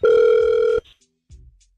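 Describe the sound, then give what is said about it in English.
Ringback tone of an outgoing telephone call: a single steady, buzzy electronic tone lasting under a second, followed by a soft click and a brief low rustle. “We'll give Caitlin a call next, and hopefully she'll answer the phone”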